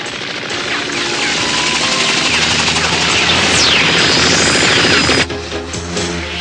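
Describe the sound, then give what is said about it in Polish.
A helicopter's rotor roars loud and unbroken during an animated chase. A whooshing sweep passes partway through before the roar cuts off near the end. “Szefie, ścigają nas. Co? To helikopter małej Videl.”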